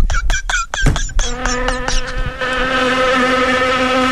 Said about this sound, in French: Il y a une mouche.